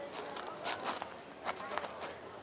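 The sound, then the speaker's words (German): Footsteps of a walking group cross a public square toward a wall fronted by black bollards, a steady series of light steps, faint and quiet throughout. “Lassen Sie uns jetzt links über den Platz gehen. Sehen Sie die Mauer mit den schwarzen Pollen davor? Da spazieren wir rüber bis zu der Absperrung.”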